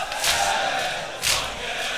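A crowd roars as a chanting mass of people sings along together, the noise swelling into two loud surges with a steadier murmur between them.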